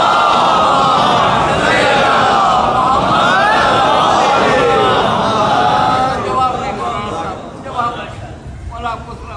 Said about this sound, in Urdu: نعرہ اتنا خطرناک لگا